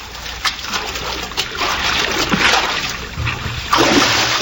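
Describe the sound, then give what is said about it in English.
Water splashing as a person swims, a steady churning wash broken by irregular sharper splashes that grow louder toward the end. “How well you swim.”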